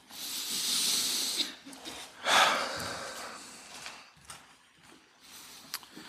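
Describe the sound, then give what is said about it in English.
A slow, deep breath in a room: two long, broad hissing rushes of air, the first lasting over a second and a louder one shortly after, followed by softer, fainter airflow. “I invite you to take a deep breath right now.”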